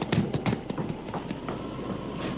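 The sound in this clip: Running footsteps of a woman hurrying up the steps of a house, a quick series of thudding footfalls that are loudest at first and die away after about a second and a half, leaving a low, steady background.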